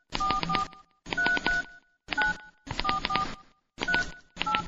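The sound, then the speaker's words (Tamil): Telephone keypad tones as a number is dialed, heard as six quick, loud bursts of overlapping beeps separated by short silences, with no voices. “இதோ இப்பவே phone பண்ணிடுறமா.”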